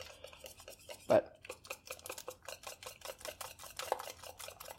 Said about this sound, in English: I'm going to add milk on top of the already finished batter. And here we go. I'm going to whisk it in again.